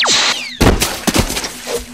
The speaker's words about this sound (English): That's it? One little phaser blast and you're down for the count?